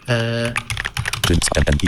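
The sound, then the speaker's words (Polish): Computer keyboard keys are tapped quickly as a question is typed into ChatGPT, a fast run of light clicks that follows a brief voice at the start. “Właśnie jestem na stronie, jestem na polu, gdzie mogę coś do niego napisać i na przykład napiszę,”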